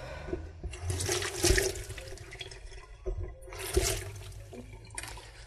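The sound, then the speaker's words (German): Water runs and splashes as small zucchini are washed, in two long surges with a short pause between them. “So, die Zucchini sind auch kleine Zucchini. Eben waschen.”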